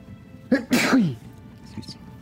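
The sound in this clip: A single loud sneeze with a short voiced build-up and sharp burst, then a brief quieter sound afterward.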